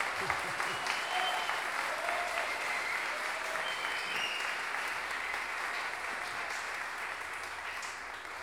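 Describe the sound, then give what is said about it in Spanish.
An audience applauds improvising folk singers at a sung-duel tournament in Chile, dense and steady clapping that holds throughout and eases slightly toward the end. “Un aplauso para ellos.”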